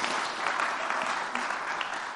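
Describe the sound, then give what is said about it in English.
A round of applause from an audience, thanking a woman who held up an image during a talk: steady, continuous clapping that is fairly soft, with no break for the whole stretch. “Can we give her a round of applause?”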